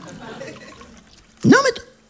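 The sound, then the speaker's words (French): A drink is poured into a glass in one short splashing burst of liquid whose tone rises as it fills. Faint murmuring voices come before it. “Allez, on va boire un petit verre. Oh, bah, si, quand même. Bon, bah, écoute, bon, bah, écoutez, moi, je me sers.”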